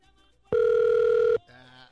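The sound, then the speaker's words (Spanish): A telephone ringing tone on a call: a single loud, steady electronic tone lasting under a second, pure and unwavering, with faint background sound after it. “suena un teléfono.”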